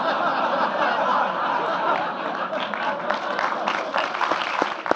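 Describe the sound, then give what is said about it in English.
An audience claps in a steady, dense wash, with chuckles and laughter mixed through the applause from start to finish. “you shouldn't clap things like that.”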